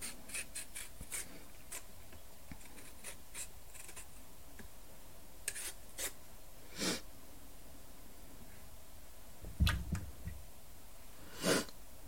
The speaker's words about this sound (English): I'll peel like towards myself. I don't know if there's any sort of factor that affects that, like whether you're right-handed or left-handed or what